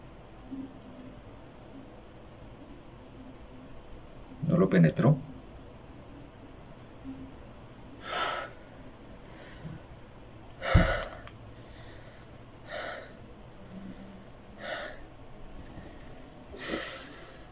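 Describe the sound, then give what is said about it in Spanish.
Labored, struggling breathing: several rasping snorts and strained inhales come in irregular bursts, with a thick cluster early and then single heavy breaths at uneven intervals over a faint hiss. “Estoy... Me está costando respirar.”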